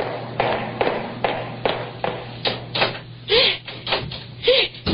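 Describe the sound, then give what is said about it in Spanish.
A key turns in a lock as a door is locked: a quick series of sharp metallic clacks and scrapes in an even rhythm, with a couple of brief squeaky tones near the end. “¡El feliz! ¡Le echó llave el desgraciado! ¡Me deja encerrar con llave!”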